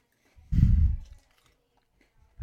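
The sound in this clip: Someone chewing a big cookie: a loud, crunchy burst of bites and chewing, a pause, then another crunchy bite starting, with no talking.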